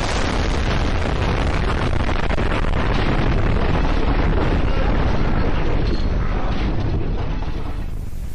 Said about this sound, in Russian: Раздался ужасающей силы взрыв.